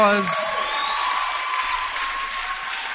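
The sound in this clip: Cheering and whoops from a church audience after a performance: a loud, steady wash of crowd noise with high shouted voices and a thin, sustained whistle-like tone running through it.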